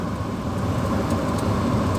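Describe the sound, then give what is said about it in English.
A big V double type truck passes by, a steady, loud low rumble with broad road and engine noise that holds evenly for about two seconds, with no voices. “So here comes a big truck,”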